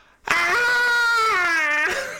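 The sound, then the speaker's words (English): A voice imitates a high, banshee-like wailing squeal, one loud sustained cry that holds its pitch, dips slightly near the end and then trails off. “squeal goes on, this banshee wail”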